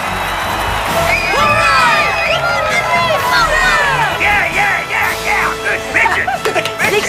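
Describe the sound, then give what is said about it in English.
A crowd cheers and whoops at a baseball game. Loud, shrill voices rise and fall in many overlapping calls from start to finish. “Grinning, Henry jogs back to the dugout. His mom, George, and Clark stand cheering.”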